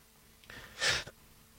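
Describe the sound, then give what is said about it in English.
A single sneeze, led in by a short sharp inhale and then a loud, breathy burst that ends quickly, with no other sound around it. “I just sneezed.”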